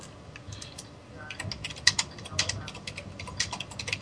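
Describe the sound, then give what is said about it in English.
Fast typing on a computer keyboard: many quick, light key clicks in an irregular rhythm, sparse at first and then busier. “Let me type to him really fast.”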